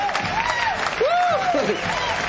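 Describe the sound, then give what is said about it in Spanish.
Loud audience applause in a sustained wash, with swooping whistle-like tones rising and falling over it. “se viene como yeah. una catarata, cae el aplauso, la broadcasting de las iniciativas felices se enorgullecen en presentar a la hora doble, fuerte el aplauso.”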